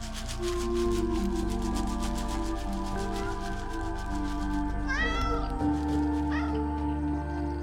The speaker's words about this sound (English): A fluffy cat runs past Maddie, and she puts the bowl down for it.